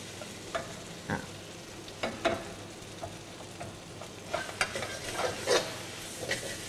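Stir-frying bean sprouts with sauce in a pan: many soft, irregular scraping and tapping strokes over a faint steady sizzle, fairly quiet throughout.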